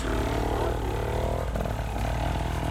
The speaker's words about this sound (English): He got his bike started because he bump started it.